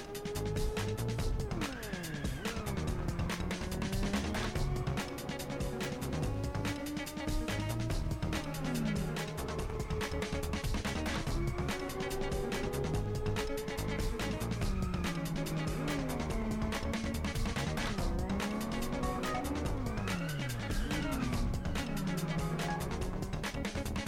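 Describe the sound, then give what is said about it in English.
Racing car engines and tyre noise from the Inertial Drift video game trailer, heard continuously over steady, groovy music for the whole length. “has a new trailer, and it's actually out now on Steam. Let's watch this trailer real quick.”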